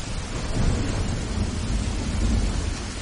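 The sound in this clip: Heavy rain and strong wind in a mountain forest at night, a loud, continuous roar of downpour with a low rumble underneath and no voices.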